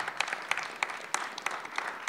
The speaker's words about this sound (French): Si vous applaudissez tout le monde, on ne va pas tenir les délais.